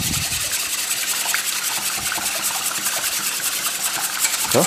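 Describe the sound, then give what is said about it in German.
A wire whisk beats egg and milk together in a bowl for a batter, giving a quick, scraping swish repeated in a steady, even rhythm throughout. “Gut, als nächster kommt der Schneebesen zum Einsatz und das griffige Mehl. Ich verschlage einmal das Ei mit der Milch”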